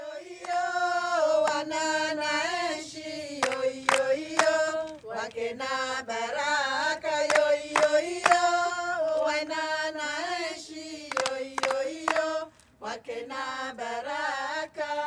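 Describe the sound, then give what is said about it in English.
A choir of Comorian women in Marseille, France sings alone. Layered voices hold sustained, harmonized melodic lines at a steady, moderate loudness throughout. “That is the sound of the Boros Choir, a group of Comorian women in Marseille in France.”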